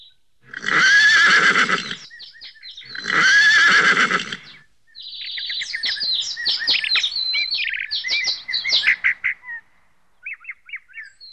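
A horse neighs twice, two loud, shrill, quavering whinnies with a short pause between them. A burst of quick bird chirps and twitters follows, ending in a few faint, scattered tweets.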